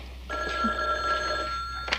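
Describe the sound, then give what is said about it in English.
A telephone bell rings in one sustained, bright, trilling burst of about a second and a half. “Oh, I'll get that. Why don't you get the phone?”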